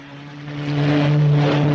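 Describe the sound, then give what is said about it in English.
A jeep's engine drones as it rounds a bend on a dirt track, a steady low hum that swells louder over a couple of seconds. “As Coogan skids the vehicle round a bend in the track, Running Bear hurries down the hillside to a lower ridge.”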